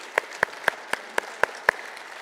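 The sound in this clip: Rhythmic clapping from a church audience welcoming guests during a service: seven sharp, evenly spaced claps in a steady beat, each one crisp and bright against a quiet background.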